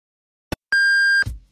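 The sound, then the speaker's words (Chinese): A radio hourly time signal sounds: a brief click, then one long, steady, high-pitched beep held for about half a second before cutting off into a short fading thud, with no talk. “北京城市广播1073，请您准确对时。现在是北京时间13点整。”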